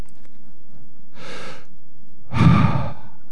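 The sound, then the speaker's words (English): A deliberate breath: a soft, drawn-in inhale followed by a louder, longer, sighing exhale, heard alone without any talk. “This breath brought to you by God.”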